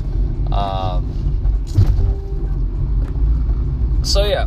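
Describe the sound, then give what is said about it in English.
A car drives along a city road, its steady low interior rumble continuing throughout, with a few brief vocal sounds over it. “So now I'm driving.”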